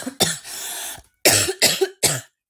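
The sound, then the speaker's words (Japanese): A person has a fit of harsh coughing and choking. One long strained, raspy cough is followed by a quick string of several sharp, loud coughs. “むせる。”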